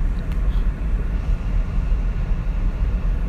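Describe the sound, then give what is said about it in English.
Steady low rumble of a car interior while driving to work, a constant dense road and engine drone that holds at an even level throughout. “I usually don't do this. I'm actually driving to work right now.”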